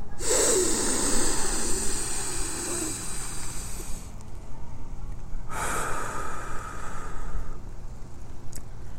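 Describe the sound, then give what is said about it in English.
A deep breath taken by a congested person, drawn in through the nose and let out through the mouth: a long, rough nasal inhale, a brief pause, then a shorter breathy exhale, over a steady low background rumble. “Second one a little bit deeper. Wow, I am really clogged up. And then in through the nose and out through the mouth. A little, you know, make, uh, hold it when you get to the top.”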